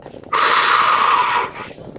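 A deep breath drawn in, one long breathy rush of air lasting about a second, steady and fairly loud before trailing off, with no talking over it.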